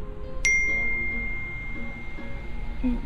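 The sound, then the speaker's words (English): A phone text message notification sounds as one bright, sharp ding with a lingering ring, alone over a faint low background hum. “The closer we got to the venue, Deva texted me.”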